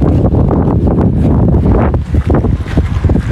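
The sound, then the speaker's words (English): Strong wind blows outdoors across a sunny parking lot, loudly buffeting the microphone. The roar is continuous and low, with uneven gusts that surge and ease throughout and no speech. “Bit of wind today, as you can hear.”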